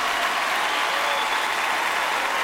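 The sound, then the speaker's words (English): Steady audience applause at an awards-show tribute performance, a dense, even wash of clapping that holds at constant loudness throughout. “sets down his microphone and joins in the applause with a beaming smile.”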